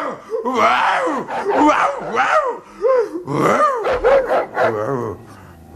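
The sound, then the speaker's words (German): A voice imitates a fierce dog barking, giving a long run of gruff, throaty barks and yelps in uneven bursts. It stays loud throughout, with short pauses between the outbursts. “Der durch den Schnaps mutig gewordene Pumuckl bellte so, dass der Tyras, ein Wolfshund aus dem Vorderhaus, sich veranlasst fühlte, auch wieder zu bellen.”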